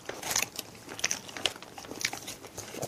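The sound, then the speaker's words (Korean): Crisp biting and chewing of a snack made from new-season chestnuts, with many small crunches and crackles in an irregular rhythm, fairly faint and without talk. “밤은 햇밤이에요. 네. 햇밤으로 만들었어요. 맞아, 맞아. 네. 저도 하나 뜯어서 먹도록 하겠습니다.”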